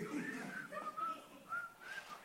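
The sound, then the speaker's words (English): A person whistles a short, faint tune of several wavering notes that rise and dip in pitch over a couple of seconds. “I'm whistling.”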